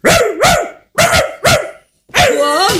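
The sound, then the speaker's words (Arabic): A neighbour's dog barks in a quick series of several sharp, loud barks with short gaps between them; the final bark is longer and more drawn out, with a whining, wavering pitch. “الكلب متاع الجار الكلب متاع الجار.”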